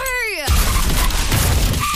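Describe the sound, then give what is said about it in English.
Car crash sounds arranged into a short jingle: a brief ringing tonal note gives way to a loud, noisy burst of crunching, shattering crash texture that fills the rest of the moment. “Every single piece of this jingle was made from the sound of a bingle.”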